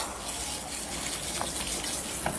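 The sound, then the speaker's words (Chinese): A running shower gives a steady rushing hiss of water, even and unbroken throughout, with no voices. “什么？我听不清，我洗澡呢。”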